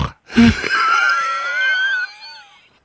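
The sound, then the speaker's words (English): A person's wheezing breath: one long, high, whistling wheeze that begins sharply, holds a thin shrill tone for about two seconds, then trails off quietly. “I was listening. I heard the wheezing. They were like...”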